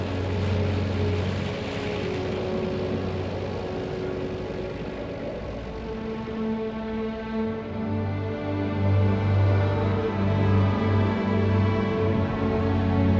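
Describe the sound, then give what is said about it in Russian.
An aircraft's engines drone as the plane approaches along the runway at an airfield: a steady, low harmonic hum that swells somewhat louder toward the end, with no voices. “По взлетно-посадочной полосе приближается самолет.”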